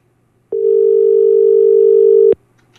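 After a caller's line is cut during a live phone-in radio program, a steady telephone tone holds one pitch for nearly two seconds. A click opens and closes the tone.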